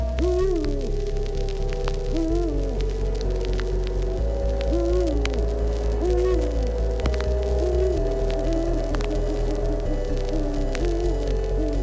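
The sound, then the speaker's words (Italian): An eagle owl hoots at night in a slow series of deep, rounded calls, each repeating every couple of seconds over a steady low throbbing hum. “Scende la notte. È il tempo dei misteriosi rapaci. Il gufo reale.”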